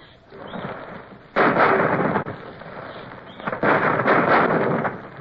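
A ship's cannon fires twice, the number three gun touched off with a linstock. Each shot is a sudden, loud, broad blast that rolls into a rough, sustained roar. A lower rumble comes before the first shot.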